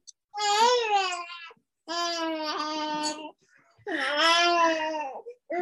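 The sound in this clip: A baby babbles and cries in three drawn-out, wavering bursts of whimpering, tearful vocalizing, with short quiet pauses between them.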